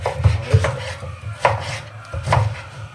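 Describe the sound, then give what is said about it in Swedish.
A knife chops food on a cutting board during casual kitchen cooking by a professional cook, with several sharp, uneven knocks and light scraping between strikes. “det ser lite farligt ut när du hackar”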